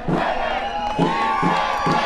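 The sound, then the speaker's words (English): Crowd of more than 100 supporters at an immigration reform rally cheering and chanting, a loud mass of voices with a rhythmic chant that repeats in regular shouted pulses. “Outside, cheers erupted for more than 100 supporters. The chants continued as police led each woman out of the building and into a squad car.”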